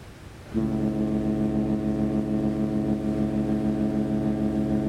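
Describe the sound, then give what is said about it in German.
Deep horn blast from a diesel harbour ferry pulling away from a Hong Kong pier. One long, loud, steady tone rich in low harmonics starts after a brief quiet moment and holds unbroken to the end. “Mit langsamen, ein wenig trägen Wendemanövern legt die Fähre Jin Guan vom Pier ab.”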